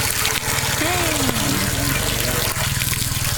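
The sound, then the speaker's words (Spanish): Water rushes steadily into a large lunch cooking pot at a liberation point in La Albania, where a meal is made for about 150 people. A continuous, loud splashing fill runs throughout, with a voice briefly heard over it. “y así suena la olla del almuerzo en el punto de liberación de la Albania. Ahí se está llenando.”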